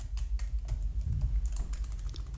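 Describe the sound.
Keys clatter on a computer keyboard as a question is typed to ChatGPT: a quick, irregular run of many soft taps over a low steady hum.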